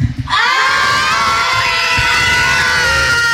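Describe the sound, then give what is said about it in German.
A school class of children packed into a radio studio lets out one loud, shrill group shout and cheer, starting after a brief pause and holding high and sustained for about three seconds. “Und so, und wenn hier gefühlt einfach mal 200 Kinder im Studio stehen, dann klingt das wie?”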